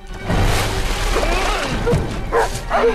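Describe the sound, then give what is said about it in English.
Dogs barking as they run toward the water: a few sharp barks and yips rise out of a loud, dense, rumbling background noise, with more of them toward the end. “The dogs run towards the water.”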